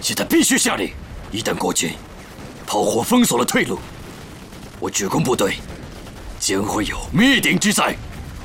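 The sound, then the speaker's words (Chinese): Gunfire and artillery blasts in a radio war drama, rough bursts sounding beneath and between urgent spoken dialogue throughout. “炮火掩护，敌人火力太强，又有两辆坦克被摧毁，请求炮火支援。”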